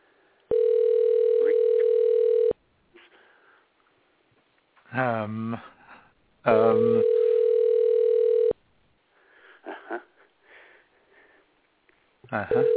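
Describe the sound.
Ringback tone from a phone call on speaker at an office Christmas party: two steady, evenly pitched tones, each about two seconds long, with people talking in the gaps between them.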